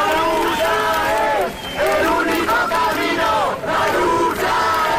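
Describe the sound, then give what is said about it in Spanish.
A crowd shouting in a city square at night: many raised voices blend into a loud, continuous roar. It holds steady, with a brief dip near the middle and another shortly before the end. “Es el sonido anoche en Sol cuando la gente se enteraba de la muerte de Mari Carmen.”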